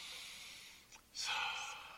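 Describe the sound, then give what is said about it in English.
An inhaled breath during guided meditation: a soft, airy intake that rises suddenly after a brief pause and holds for most of a second before easing off. It is heard alone, with no speech. “Breathing in.”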